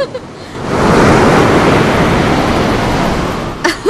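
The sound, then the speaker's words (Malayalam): A big ocean wave surges onto a beach in Goa: a loud, broad rushing roar swells up within the first second, holds steady, then eases off near the end. “നീ നോക്കിയേ, ഒരു ഉഗ്രൻ തിര അടിച്ചു കയറി വരുന്നുണ്ട്.”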